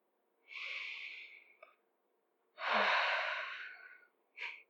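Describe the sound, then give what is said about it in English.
A person leaving a voicemail takes a deep breath: a long, airy inhale followed by a slower, heavier exhale, then a short third breath. It is faint and heard alone, with no talk. “And another deep breath for good luck, I guess.”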